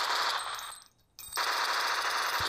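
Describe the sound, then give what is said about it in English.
A Tommy gun sound effect fires on automatic. Two long bursts of dense, continuous rattling crackle are split by a brief pause. “Want to hear the Tommy gun?”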